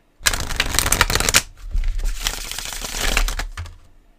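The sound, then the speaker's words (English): A deck of playing cards given a riffle bridge shuffle, with a dense, crackling burst of flicking cards followed by a longer, softer cascading rustle as the deck settles. No voices. “shuffling a deck of cards with this mic sounds hella nice. So I'm going to do that right now.”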